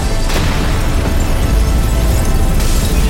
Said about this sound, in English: She pushes a button she holds and the bag explodes.